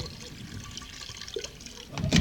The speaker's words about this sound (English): Here's a cognac. I'll pour a little into your dish.